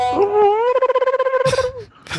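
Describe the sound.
A person imitates seagull calls in a voice message: a high, wavering cry with a rapid pulsing tremolo, followed by short breathy bursts of noise.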